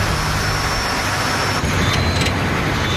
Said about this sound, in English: I'm concerned that maybe I'm low on oil, but I'm scared to shut the truck down out here in case it doesn't start.